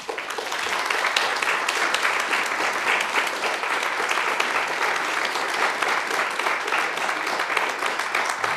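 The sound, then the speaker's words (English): Audience applause after a talk, with sustained, dense clapping from a large crowd that holds at an even level for several seconds. “let me, in their name, simply give voice to the applause that you just heard”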